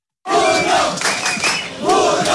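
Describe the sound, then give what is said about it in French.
A street crowd of Moroccan football fans chants their goalkeeper's name while celebrating a win: dense massed voices shout in loud rhythmic surges. The chanting starts abruptly and continues throughout. “les Marocains ne se sont pas trompés en chantant le nom de leur gardien héroïque Yacine Bounou”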